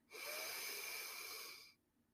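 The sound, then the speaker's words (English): A single deep breath in, a steady airy inhale lasting over a second with a faint whistling edge, quiet and alone before it stops abruptly. “Take a deep breath in.”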